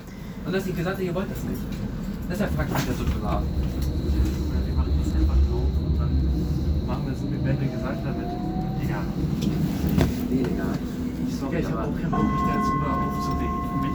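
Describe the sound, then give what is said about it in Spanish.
Steady low rumble of a metro train ride with a thin tonal whine and occasional rattles, continuous throughout, with voices in the background. “En este momento me acompañáis con el metro, otros caminos.”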